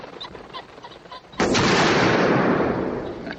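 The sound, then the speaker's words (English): A sniper rifle fires in a film scene. One sudden loud report cuts through a quieter background and is followed by a sustained roaring noise that slowly fades. “And they were going to shoot him with the sniper when he did the shot.”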